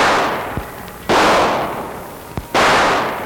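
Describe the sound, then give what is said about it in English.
Two loud gunshots ring out inside a supermarket, each a sharp bang with a long decaying tail, spaced well apart. “What was that? It sounded like shooting.”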